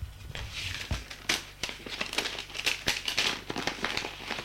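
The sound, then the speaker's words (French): Paper crinkling and rustling as a yellowed envelope is pulled out from behind torn canvas, with many quick, fairly faint crackles running continuously. “Et sort une enveloppe jaunie.”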